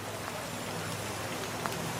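Rain falling outside makes a steady, even hiss of drops on surfaces, continuous and fairly soft throughout, with no voices.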